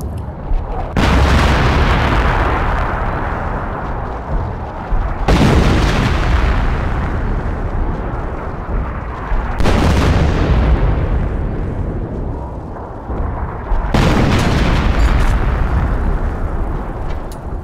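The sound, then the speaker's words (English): Underground mine detonations at a trench position, four heavy booms spaced a few seconds apart, each hitting hard and then fading into a long, deep rumble before the next one lands. “The third mine was detonated, and it was the same story.”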